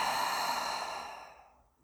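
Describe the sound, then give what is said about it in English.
A slow, soft breath out through the mouth during a guided deep-breathing exercise, airy and breathy, fading gradually to silence over nearly two seconds. “Taking a deep breath in through your nose, out through your mouth.”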